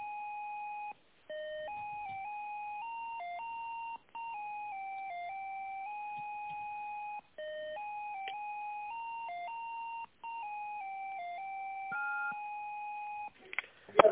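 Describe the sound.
Electronic telephone tones play while a call is transferred to another department, forming a continuous beeping melody of stepped pitch changes with a few short gaps, followed by a brief burst of noise at the end.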